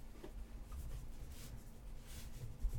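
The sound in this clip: Faint scratchy strokes of someone writing something down by hand. The strokes come soft and uneven over a low, steady hum.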